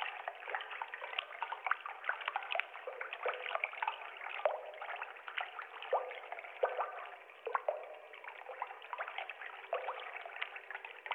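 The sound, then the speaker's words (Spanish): Feet splashing and playing in river water while sitting at the edge: many small irregular splashes, trickles and drips in a steady, fairly quiet stream, with no voices. “De hecho, ese sonido lo estás haciendo tú, jugando con los pies en el agua.”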